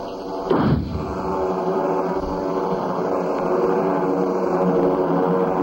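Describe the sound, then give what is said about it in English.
A flare gun is fired skyward toward the clouds, giving a single sharp bang at once followed by a short falling whoosh. A steady rushing background noise continues after it. “throw me that flare gun. Yes. Here goes.”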